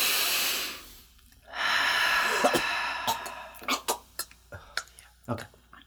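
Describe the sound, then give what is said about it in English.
People take a deep breath together: a loud, breathy inhale, a brief pause, then a longer, steady exhale of airy hiss. “Let's do a little deep breath.”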